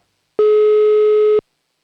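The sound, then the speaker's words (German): A single telephone tone while a call is being placed: one steady, clean, mid-pitched beep lasting about a second, loud and alone with silence on either side. “Und wir rufen in Oberösterreich an.”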